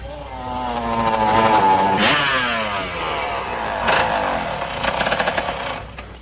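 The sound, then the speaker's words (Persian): Motorcycle pulling away at night, its loud throaty engine revving and climbing in pitch, dropping at a gear change and climbing again, with a rough uneven rumble near the end. “بابک سوار موتورسیکلت میشه و میره دم کاباره خصوصی نظام.”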